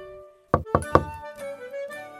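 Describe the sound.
Three quick, crisp knocks on a door at the top of a stairway, struck by someone carrying a plate, evenly spaced over soft, steady background music.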